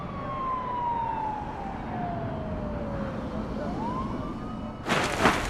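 A police car siren wails along a highway, its tone sliding slowly downward and then climbing again over a steady road rumble, before a sudden loud rush of noise near the end.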